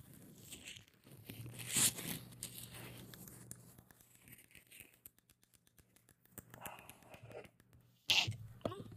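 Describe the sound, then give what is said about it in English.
A microphone being bumped during an ASMR session gives two loud, sharp knocks well apart. Soft rustling, scratching and clicking noises fill the quieter stretches in between. “I'm sorry, I hit the microphone.”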